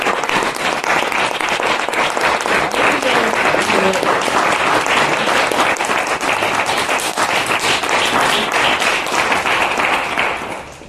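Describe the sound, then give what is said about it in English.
Sustained, dense applause from a lecture audience welcoming and thanking internet viewers, loud and steady for about ten seconds before tapering off at the end. “We'd like to thank all of our internet viewers today. Please, everyone, give them a hand and welcome.”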